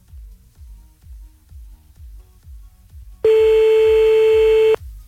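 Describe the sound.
A phone call to Corsica rings unanswered: a rapid series of soft, low pulses repeats, then a loud, steady electronic tone with a buzzy edge sounds for about a second and a half and stops abruptly.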